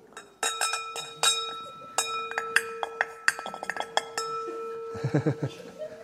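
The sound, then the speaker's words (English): A spoon clinks against a cup as coffee is stirred in a shared common area, giving many sharp, bright, ringing strikes at uneven intervals, with a quicker run of clinks toward the end. “as they're stirring up their coffee”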